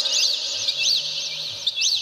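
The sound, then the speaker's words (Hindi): Birds chirping over a farm field: a steady run of high, arching chirps repeating throughout, with a faint low hum beneath. “अब महाराज कितने पशु पक्षी आ गए, बड़ा चहचहाट होने लगा, चिड़िया बोलती हैं, पक्षी बोलते हैं”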